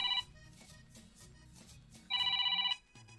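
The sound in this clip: Telephone ringing in two bursts of a shrill, trilling electronic bell: a brief one cut off at the start, then a longer ring of about half a second, with quieter low sounds between.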